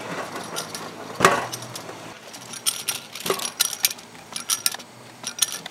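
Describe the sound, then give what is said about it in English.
A beer canning line's filler head thumps down into cans amid irregular mechanical clatter, with many sharp metallic clicks and clinks of varying loudness. “that thumping sound you hear is the filler head going down into the can, and it fills from the bottom to the top.”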